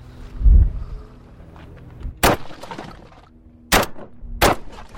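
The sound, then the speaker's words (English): Gunshots at a gun range: three sharp, loud reports, the first standing alone and the last two closer together, with quiet between them. “This gun range is similar to others across America where firearms enthusiasts, proud and protective of their Second Amendment rights, can practice becoming a better shot. There you go. Whenever you're ready.”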